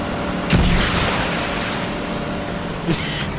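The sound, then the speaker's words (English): Gunfire in a video game, with two sharp booming shots about two seconds apart over a steady wash of background noise. “Is that you shooting at me? That's definitely you, because none of these things build.”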